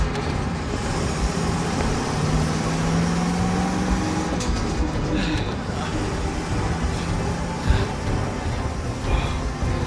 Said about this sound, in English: Well, drive, man! Drive! The building's caving inside there.